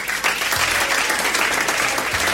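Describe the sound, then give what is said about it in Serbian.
Applause, a thick, continuous round of clapping that holds at a steady, fairly loud level from start to finish. “Aplauze.”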